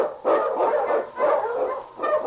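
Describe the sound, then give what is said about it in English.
Husky sled dogs, Eskimo lead dogs on a snowy Yukon trail, barking in a few rough, drawn-out bursts in close succession, fairly loud with no voices. “King, on you Huskies!”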